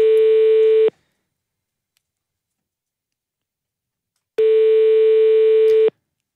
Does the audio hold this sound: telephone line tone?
yes